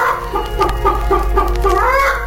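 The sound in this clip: A hen clucks in a quick, uneven run of short, throaty notes over a steady low hum, with no talk.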